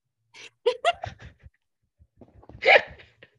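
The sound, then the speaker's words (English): A single human sneeze bursts out loudly, sharp and breathy, after a stretch of brief breathy vocal sounds and a short pause. “I gotta sneeze.”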